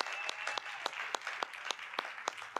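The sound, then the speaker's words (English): A church audience claps in welcome: fairly faint, steady applause with crisp individual claps popping out at an uneven, quick rhythm across the whole stretch. “Hey, can we make some noise and welcome in our online Vineyard family? Come on, let's hear it for them.”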